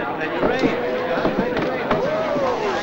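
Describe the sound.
Two sharp gunshots from a handgun as a man shoots a policeman during a struggle. The bangs cut through a speaking voice and steady background noise.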